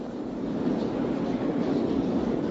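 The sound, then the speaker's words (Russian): A subway train rides along with a continuous, even, low rumble and a steady hiss, and nobody speaks. “Поэтому Самоделкин и Карандаш катались на метро до самой ночи.”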